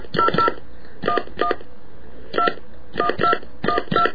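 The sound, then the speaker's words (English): Telephone keypad dialing tones: a series of short, clean electronic beeps in irregular clusters of one to three, separated by brief pauses, moderately loud with nothing else around them. “To place a call, please dial the number.”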